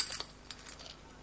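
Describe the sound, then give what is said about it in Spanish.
Gold coins poured into a woman's hands give a few faint, light metallic clinks, scattered quickly across a brief moment. “Vierte varias monedas de oro en las manos de su esposa.”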